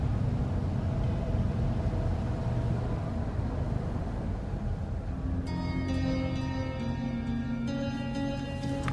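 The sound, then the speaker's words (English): Steady engine rumble of a car driving and pulling up to a gas station booth, loud and continuous throughout, with higher tonal sounds joining in over the second half. “I shouldn't have let you drive. There. Tiny self-serve gas. We never close. Pull up to the booth.”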